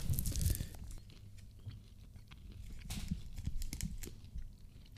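Crunching and chewing of Russian candies, a steady run of faint, crisp bites and munching with scattered sharper crunches throughout.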